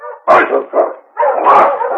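Sled dogs bark as a team is sent off toward Dawson: a few loud, harmonic barks and yelps in separate bursts, then a longer unbroken stretch of overlapping barking.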